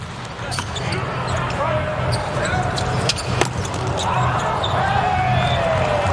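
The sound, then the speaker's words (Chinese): A volleyball serve during a USA–Poland match: a few sharp ball strikes, one louder near the middle, cut through a steady, dense crowd roar. “莱曼斯基的发球，”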